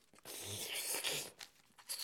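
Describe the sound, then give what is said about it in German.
Paper crinkling and rustling as letters are folded into an envelope and sealed shut, a few crunchy, tearing bursts of moderate loudness running close together across two seconds. “So, die Briefe kommen jetzt in einen Umschlag. Zugeklebt.”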